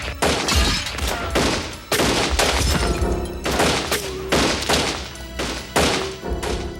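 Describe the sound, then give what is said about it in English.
Gunfire in a small store during a 1978 robbery at an auto license tag agency in Catoosa, Oklahoma: many loud, sharp shots crack in quick bursts, each followed by a brief ringing decay. “Twenty rounds ricocheted through the small store in a matter of seconds.”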